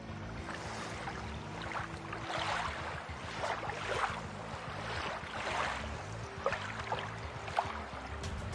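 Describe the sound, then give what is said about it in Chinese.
Staff splash water to make waves and ripples for a swimming simulation, producing a continuous, fairly faint churning and sloshing wash with occasional slightly stronger splashes. “我们请我们的工作人员啊，来制造一下我们在游泳时产生了水波纹和浪花的情况下，结果又会有什么不同呢？来，我们制造一些浪花。”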